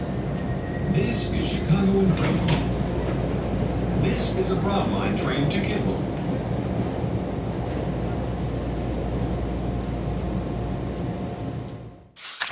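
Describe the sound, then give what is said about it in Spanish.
A steady, loud, low rumble inside a moving metro train, with faint voices at moments, before the noise cuts off abruptly near the end. “El metro es un lugar muy silencioso, aquí está todo el mundo callado y el único que habla soy yo.”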